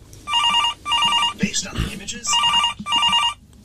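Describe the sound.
A telephone rings for an incoming caller on a live radio phone-in show. It comes as two pairs of steady, warbling rings, with a short burst of talk between them.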